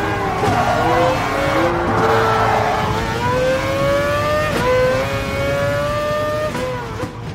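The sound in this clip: A racing car engine from a racing video game revs loudly and continuously, its pitch climbing steadily with a few brief dips where gears shift.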